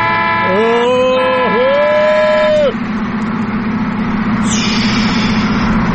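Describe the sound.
A Nissan pickup truck engine drones loud and steady. For the first few seconds a sustained wavering tonal whine with a brief dip rides over it, then only the engine hum remains.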